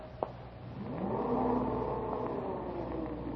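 An elevator runs with a steady whirring, rumbling motor hum that follows a sharp click near the start, swells after about a second and then holds level to the end.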